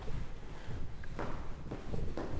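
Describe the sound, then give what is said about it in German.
Footsteps going down a large marble staircase in a hotel, from the third floor to the ground floor: a few evenly spaced, crisp steps over a steady background hiss. “Große Marmortreppe im Hotel. Vom dritten Stock runter ins Erdgeschoss.”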